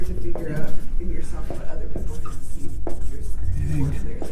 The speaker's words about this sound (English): Ooh, let's write this down. Okay. Yep. So let me write all this down.